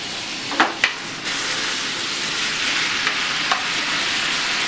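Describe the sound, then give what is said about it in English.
Beef sizzles steadily as it is stirred and cooked down in a thickening, syrupy sauce over a gas flame. Two utensil knocks come early, and a couple of faint clicks sound later over the constant frying hiss. “Give that a good mix till all the beef is coated nicely. Look at that. It's getting more syrupy and you want to cook it down just a bit more.”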